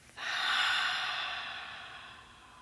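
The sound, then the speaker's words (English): One long exhale through the mouth during a guided breathing exercise: a soft, airy hiss that swells quickly, then slowly fades, heard alone. “Inhale. Fill every square inch of your body. And then exhale through your mouth.”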